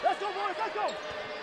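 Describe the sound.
A basketball is dribbled hard on a court during a college game, with quick bounces under a commentator's play-by-play talk.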